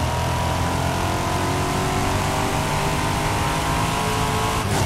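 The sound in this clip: Car engine in a driving video game, a steady droning hum with layered harmonics that holds a nearly constant pitch throughout, heard alone without talk.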